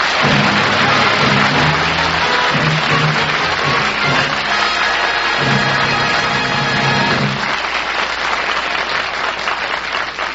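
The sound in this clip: Loud studio audience applause after a contestant's quiz show win, a dense, sustained roar of many hands clapping that holds steady for several seconds before easing slightly near the end.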